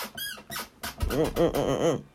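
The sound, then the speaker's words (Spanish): An office chair creaks in a few rhythmic, high squeaks in the latter half, each a short rising-and-falling whine, after some softer shuffling knocks. “Oh, esa es mi silla rechinando, ok.”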